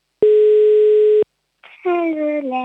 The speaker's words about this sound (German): Die Nummer wählt gerade. Ich hoffe, es hebt auch jemand ab.